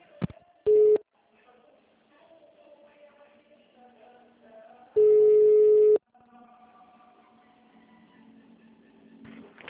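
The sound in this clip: Steady telephone beeps sound while a phone call is being transferred, a short tone followed later by a longer one of the same pitch, with faint speech murmuring on the line between them.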